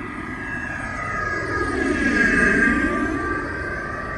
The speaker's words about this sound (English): Routing is fine, clear for lineup and clear for takeoff.